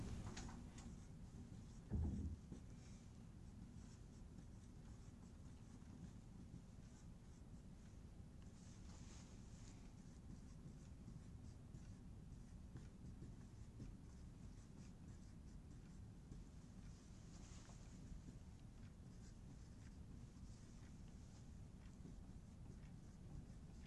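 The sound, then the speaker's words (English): Faint, continuous scratching of someone writing out an equation by hand, a steady soft scrape that runs almost unbroken with one brief louder knock near the start. “We can write that out to make it obvious.”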